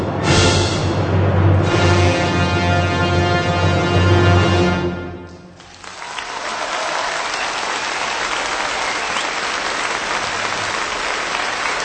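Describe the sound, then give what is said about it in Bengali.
Music plays for about five seconds, then gives way to a broad, steady round of audience applause as a reward for the performer, continuing evenly to the end. “প্রথমে আপনারা সঙ্গীত শুনলেন তারপর সঙ্গীতের প্রতিক্রিয়া হিসেবে শুনলেন হাততালি”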